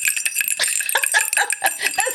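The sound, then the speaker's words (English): A small jingle bell shakes in bright, continuous high tinkling, with laughter mixed in throughout. “the lamest jingle bell ever, right there.”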